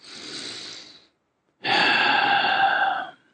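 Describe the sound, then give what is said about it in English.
Deep breath during a guided meditation: a breathy inhale of about a second, a brief silence, then a longer, louder rushing exhale, with no talk over it. “Take a deep breath.”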